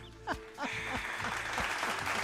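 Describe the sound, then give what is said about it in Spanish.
Fairly quiet audience applause on a show: a steady wash of clapping with a voice talking over it throughout. “Necesito aplausos para Bellorín”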